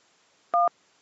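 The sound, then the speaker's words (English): A single touch-tone phone keypad beep sounds alone: one short, steady dual-tone pulse at moderate loudness against near silence. “One beep for it. One for yes, 2 for no.”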